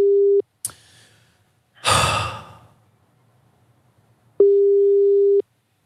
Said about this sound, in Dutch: Dat je dan naar een ringtoon zit te luisteren. Naar een ringtoon, ja.